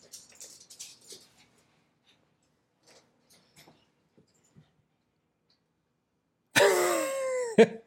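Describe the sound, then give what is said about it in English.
A dog gives high-pitched whining yelps with falling, wavering tones in a loud burst near the end, after a long stretch of near-silence broken only by faint scattered small noises. “My wife just walked in with the dog.”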